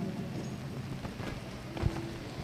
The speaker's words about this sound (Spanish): Se ha venido una leve lluvia en esta tarde